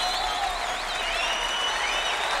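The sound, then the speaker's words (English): Applause from a live concert audience at Carnegie Hall in February 1963, following a jazz quartet's performance: a dense, continuous wash of clapping at a steady level. “A classic response, applause from live at Carnegie Hall back in February 1963.”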